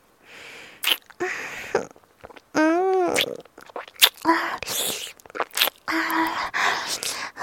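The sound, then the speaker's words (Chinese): Eating an ice pop during a phone call, with wet slurping and sucking noises in short, irregular bursts, broken by brief voiced sounds. “每次给你打电话的时候都要吃冰棒呢。味道真不错哟。”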